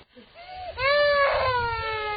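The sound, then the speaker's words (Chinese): An infant cries, beginning with a short, thin whimper that breaks into a loud, sustained wail with a tremble in it. “别哭，别哭啊！别哭啊！”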